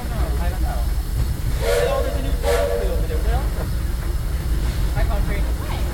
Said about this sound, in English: If you'll be leaving us here, please remain seated until the train comes to a complete stop.